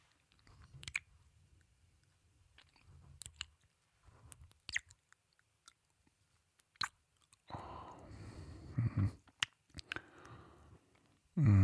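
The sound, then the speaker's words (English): Soft, wet kissing and lip-smacking sounds from lips, heard as scattered short moist clicks and smacks, then a denser, louder stretch of wet smacking near the end. “right now, I want to kiss those soft, supple lips of yours.”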